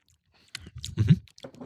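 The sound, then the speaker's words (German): Someone takes a sip of Belgian wheat beer from an abbey brewery in Ghent, making soft, wet mouth sounds and a brief gulp, faint and over in about a second. “Ja, ich würde sagen, wir probieren erstmal. Prost, Männers. Ja, ich nehme einen Schluck hier.”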